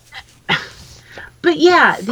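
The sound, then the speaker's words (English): A dog barks and yips in a few short bursts, ending in a longer, wavering whine-like cry that rises and falls in pitch. “My dog agrees with me. He does.”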